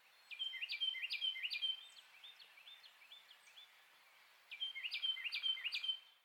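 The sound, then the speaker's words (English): A Carolina Wren sings in a snowy West Virginia national forest, repeating loud, rolling whistled phrases in quick rhythmic series. Two bright bouts are separated by a stretch of fainter, softer phrases. “I'm hoping to hear some sounds from today's bird, the Carolina Wren.”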